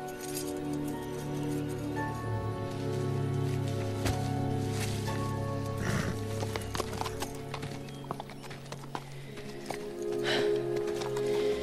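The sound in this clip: Hooves of a saddled horse clip-clop in a loud, uneven run of many steps, with light clinking mixed in.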